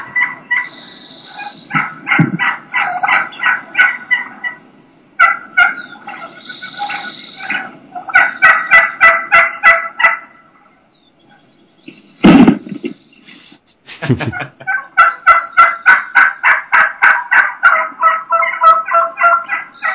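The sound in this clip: Wild turkeys gobble and attack plastic decoys, making long trains of rapid rhythmic thumping pulses. Loud, raspy gobble bursts break in between, and a near-silent gap falls midway.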